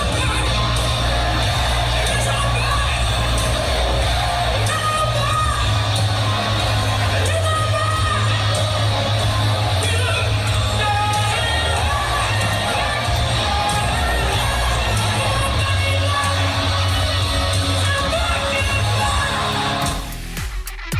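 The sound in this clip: Audience-made recording of a live rock band covering a hard-rock classic. The sound is loud and rough, with crowd noise throughout, and it cuts off abruptly near the end.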